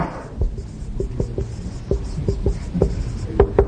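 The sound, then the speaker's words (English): Names of economic systems being written on a board: many short scratchy strokes and taps in an irregular run, fairly faint and steady, with no voices. “And next thing we do is we write the names of three economic systems on the board. Over here, we're going to write the name socialism. Over here, we're going to write the word capitalism.”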